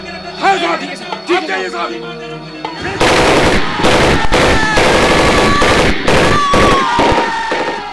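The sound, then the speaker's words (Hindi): Rapid bursts of Sten gun fire during a battle among bunker positions, loud crackling volleys repeating densely after a few seconds of voices and continuing to the end. “बाना सिंह कभी इस मोर्चे पर दौड़ते तो कभी उस पर, स्टैंगन से गोलियों की बौछार करते हुए”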